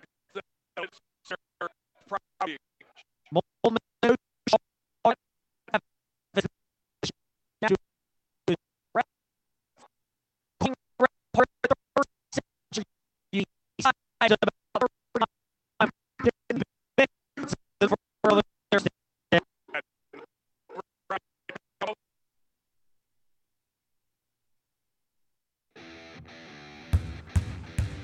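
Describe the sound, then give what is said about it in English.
Sneakers squeak sharply on the court during a youth basketball game. Many short, bright squeaks come in irregular bursts, with a brief pause in the middle, and a rougher burst of noise follows near the end. “That's the sound of winter in one of the Forest Youth Athletic Association's most popular sports, basketball.”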